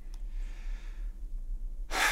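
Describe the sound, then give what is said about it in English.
A deep breath: a faint, airy intake comes early, then after a pause a loud, sharp rush of air near the end, over a steady low hum. “Would you just sit up real straight and take a real deep breath, like the deepest breath you've taken all day?”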